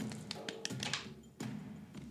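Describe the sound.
Dice roll across a table during a tabletop role-playing game, heard as a quick scatter of light taps and knocks followed by a duller thump, all fairly faint.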